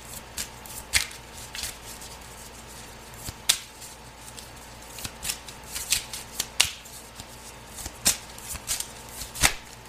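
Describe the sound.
Playing cards are dealt out one by one, giving many sharp, crisp snaps and flicks at irregular intervals, some louder than others, with no talking.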